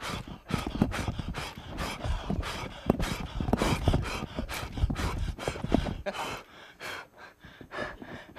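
Someone breathes out hard to shoot down targets in a breath-controlled test game: many quick, forceful puffs of breath in an uneven rapid rhythm, fairly faint, with no talk.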